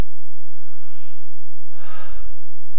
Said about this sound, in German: Ein bewusster Atemzug.